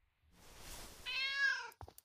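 A cat gives one drawn-out, clearly pitched meow after a stretch of soft breathy noise, followed by a few brief taps. No one speaks.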